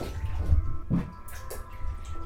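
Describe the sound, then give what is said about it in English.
Water sloshing in a bathtub as a person climbs into the bath, with a few soft, faint splashes and gentle movement of water and no talk. “And I'm about to get in the tub. So I had a really punishing swim session last night, and I've backed it up with a gym session this morning. So let's see if this bath”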